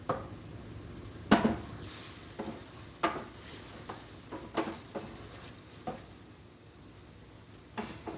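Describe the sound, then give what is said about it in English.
Sausage is stirred in a frying pan: a low, steady sizzle runs throughout while a utensil scrapes and clacks against the pan in many irregular, sharp bursts. “Let's mix that guy up. Make sure it gets everywhere it needs to be.”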